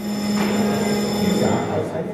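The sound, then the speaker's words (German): An electric bell rings to call members of parliament to a vote during a committee of inquiry. It gives a steady, sustained buzzing ring that runs unbroken for the whole two seconds. “Eine Klingel ruft die Abgeordneten zur Abstimmung.”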